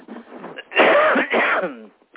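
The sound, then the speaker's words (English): Two loud, rough coughs come from a person with a slight cold, preceded by quieter throaty noise, with no talking over them. “I have a little bit of a cold, so. Yeah. Sorry for the cough.”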